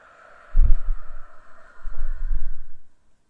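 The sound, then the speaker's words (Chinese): A slow, breathy exhale through the nose during a guided deep-breathing relaxation, heard as two soft low rushes of air over a steady faint tonal background. “然后慢慢的用鼻腔吐出去，吐得干干净净，代表着你这一天身体里不开心的能量都被吐出去了。”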